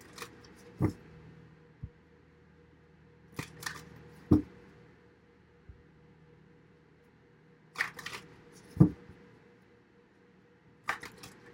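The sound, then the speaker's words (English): Tarot cards are drawn from a deck, giving several crisp snaps and flicks at irregular intervals, some in quick pairs, over a quiet, low background. “I'm going to get some cards from the Wild Unknown Tarot.”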